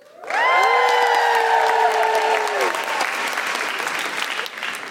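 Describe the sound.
A live audience at a recorded comedy panel show on feminism claps and cheers, with loud, steady applause that holds throughout and a long sustained whooping cheer rising over it in the first few seconds.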